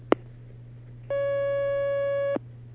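A telephone line tone sounds as a caller is put through on a phone-in question line: a brief click, then one steady tone of just over a second over a low, constant hum.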